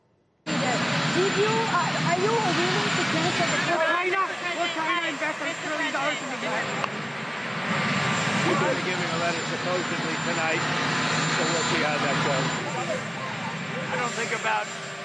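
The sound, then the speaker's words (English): A presidential helicopter roars through an impromptu press event, its loud, steady engine noise and a high, constant whine drowning out the voices of people talking throughout. “Key policy announcements made in moments like these, incomprehensible impromptu press events drowned out by the sound of Marine One.”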